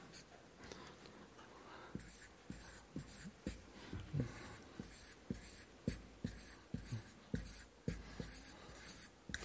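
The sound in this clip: Writing on paper: many scratchy strokes in a steady, uneven rhythm, with short taps and scrapes as the writer marks down figures, fairly soft against a quiet background.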